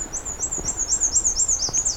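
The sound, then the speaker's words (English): A black-and-white bird sings loudly on a June afternoon: a rapid, even series of high, thin repeated notes that carries on steadily alone over faint background hiss. “presumably this bird will keep singing”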